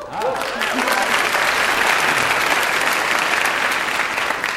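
Sustained applause from an audience for a men's basketball team, a dense, even wash of clapping that holds at a steady loud level throughout.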